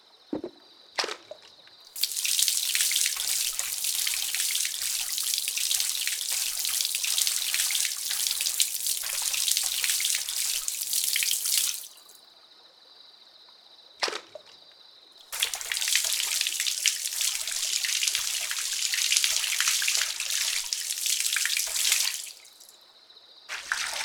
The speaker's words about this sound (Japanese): ではこれから頭を洗い流させていただきます。